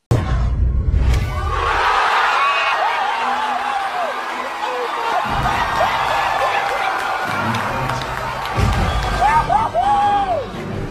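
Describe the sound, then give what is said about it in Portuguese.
Cinema audience cheering, whooping and laughing during the Avengers' final fight with Thanos, a dense, loud roar of many voices with sharp rising whoops breaking out above the crowd throughout. “Quem lembra dos vídeos que circularam com as reações do público nas salas de cinema do mundo todo assistindo aquela cena clássica da luta final entre os Vingadores e Thanos?”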